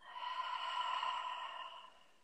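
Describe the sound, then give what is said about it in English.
A deep breath taken in through the nose and let out through the mouth during a guided relaxation exercise: one soft, airy breath that swells, holds and fades over about two seconds, faint and alone. “And then take a big deep breath in through your nose. Let it out through your mouth.”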